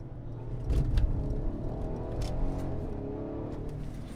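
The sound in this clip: A car engine accelerates in Sport Plus mode on run-flat tyres, giving a moderately loud, low rumbling drone with layered harmonic tones and a few brief surges, with no talk over it.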